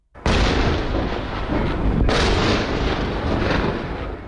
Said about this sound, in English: That is the sound of explosions over Haifa in northern Israel last night. Sirens you can hear there as well.